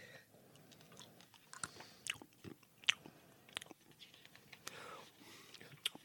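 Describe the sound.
Quiet chewing and crunching on a pink flavoured treat, with several sharp crisp bites scattered among soft mouth sounds.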